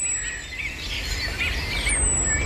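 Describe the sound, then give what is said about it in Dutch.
A morning chorus of many birds singing on a country estate, with overlapping chirps and warbles that run steadily through the whole clip at moderate level and no talk. “Freek liet zich op landgoed Mariendaal betoveren door een grandioos ochtendconcert.”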